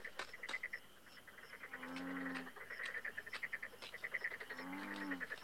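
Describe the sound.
Bullfrog croaking: two low, drawn-out croaks, faint overall, set against a rapid, pulsing chorus of higher chirps and clicks.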